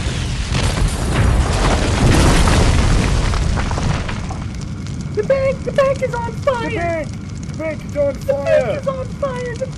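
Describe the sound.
A loud, rumbling explosion sound effect for a bank set on fire roars for about four seconds, then its low rumble lingers under voices.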